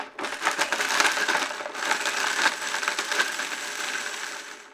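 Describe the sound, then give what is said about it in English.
A blender runs quickly to chop chocolate, making a loud, gritty, continuous crushing and grinding noise that lasts nearly five seconds with only slight dips; no voices. “I'll turn it on here. The chocolate has to be blended quickly so the blade won't get too hot and melt it.”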